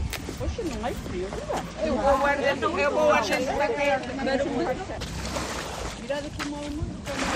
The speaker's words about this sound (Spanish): El barco de José ya está aquí.